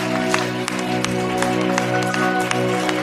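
Church audience applauding during worship, with scattered sharp claps over a steady droning tone that holds throughout.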